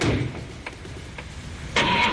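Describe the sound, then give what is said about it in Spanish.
A car engine starts around eight in the morning on a mild day. A steady low rumble runs throughout, with a louder, fuller burst near the end as the engine catches. “Casi las 8 de la mañana, tal vez arrancando. No está tan fresco como para que el motor no arranque. Ahí está.”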